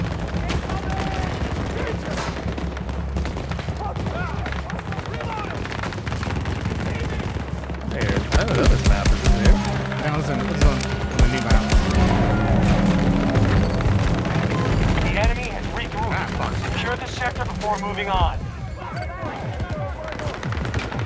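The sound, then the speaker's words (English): Video game gunfire crackles in rapid bursts with heavy booms beneath. The shooting grows denser and louder about midway, then stays intense to the end amid talk. “I'm under fire! Reload!”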